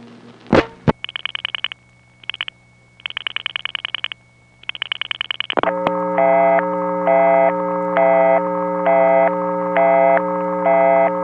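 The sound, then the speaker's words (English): An eerie busy signal on a telephone party line: choppy bursts of a high tone give way to a steady, layered electronic drone with evenly spaced pulses repeating until the end, loud and with no talking. “When this would happen, I found that I could get through by slightly varying the number I dialed. For example, if I called 6266 and got that eerie busy signal”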